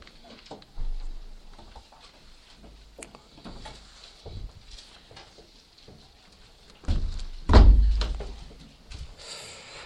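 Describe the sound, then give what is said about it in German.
A window being closed during a prayer gathering: after long quiet stretches of faint rustling and patter, a brief rattle and a heavy thunk arrive near the end. “Wir können das Fenster jetzt wieder schließen”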